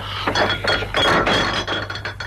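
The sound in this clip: Glass bottle and glasses clink as the best bottle is served, a few bright clinks and duller knocks spread irregularly across the moment with no talk over them.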